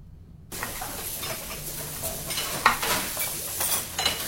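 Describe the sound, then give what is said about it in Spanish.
Food cooking in a pan: after a brief silence a steady sizzling hiss starts and continues, with light stirring and occasional small clinks over it. “Estamos cocinando algo rico, algo delicioso.”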